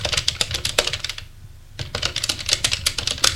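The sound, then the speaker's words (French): Rapid clicking of a computer keyboard as a hotel clerk types to check room availability, with quick irregular keystrokes, a short pause in the middle, then more brisk typing. “Il regarde sur son ordinateur pour savoir s'il y a des chambres de libre.”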